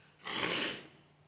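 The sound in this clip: A single nose blow from someone with a cold: one broad, rushing burst of air lasting about half a second, with quiet before and after.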